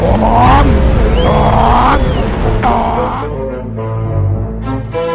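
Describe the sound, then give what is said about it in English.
A diesel engine revs hard, loud and throaty, in a few surging bursts whose pitch swings up and down before easing into a lower rumble. “Crank up that diesel.”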